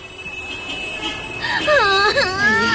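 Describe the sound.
A child cries in a home. After a quieter opening, a loud, wavering wail breaks in partway through, its pitch rising and dipping in repeated sobbing swells.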